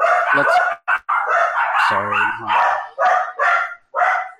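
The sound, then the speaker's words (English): A dog barks excitedly as someone comes in the door, a rapid run of many high, sharp barks and yips with short gaps between them. “Mom just walked in the door. Dog's going crazy.”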